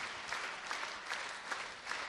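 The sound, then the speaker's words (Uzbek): Audience applause at a gathering, a soft but dense, even wash of many hands clapping continuously throughout. “Va qarsakbozlik bo'lib ketdi bu yoq lekin.”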